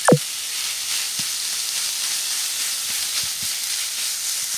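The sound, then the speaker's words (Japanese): Minced chicken stir-fries in a pan with a steady, bright sizzling hiss that stays even throughout, broken by a few faint taps as a spatula presses the meat. “しんなりしたら鶏ひき肉を入れて炒めます。”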